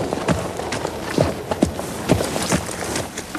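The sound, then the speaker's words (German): Hoofbeats of a horse ridden off a dressage arena after halting before the judges: a steady series of soft, dull thuds at a walking or trotting pace, fairly even in loudness, with no voices. “verabschiedet sich mit einem Gruß, bevor sie vom Platz reitet.”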